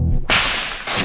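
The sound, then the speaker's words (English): A whip cracks as its tip breaks the sound barrier, making two sharp, loud snaps, each trailed by a brief airy hiss, with no other sound. “is a whip. The sound you just heard was literally a sonic boom,”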